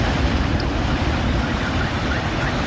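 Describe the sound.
Storm waves crash on the sea shore at Yumurtalık after a downpour and gale, a dense, continuous roar of surf mixed with wind buffeting, steady and loud throughout, with no voices.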